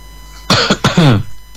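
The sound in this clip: A cough over a telephone line: a few rough bursts in quick succession, the last longer and partly voiced, above a low steady hum.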